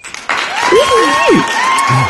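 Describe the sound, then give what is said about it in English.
Applause and cheering from a live studio audience. It bursts in loudly after a brief near-quiet moment and holds strong, with whoops and shouted calls rising and falling above the clapping. “Can we get an applause? Oh, yeah.”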